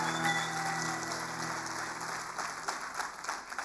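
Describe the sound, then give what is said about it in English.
Applause from an audience at a worship gathering, a steady, faint wash of clapping and crowd noise that continues throughout without a break. “Can you just make some noise for Jesus one more time?”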